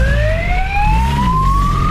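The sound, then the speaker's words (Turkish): Police siren wailing during a motorcycle chase through city streets, a loud continuous tone climbing slowly in pitch over low traffic rumble, with no voices. “Polis ekipleri peşine düştü, siren seslerine rağmen kaçışından vazgeçmedi.”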